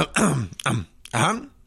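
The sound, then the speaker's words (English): A voice imitates a gruff throat-clearing cough from a medium-sized, reddish-tinted creature: three rough, voiced bursts, the first longest, with a wavering pitch and no words spoken. “from behind you, there is kind of a cough from a medium-sized, reddish-tinted gelt.”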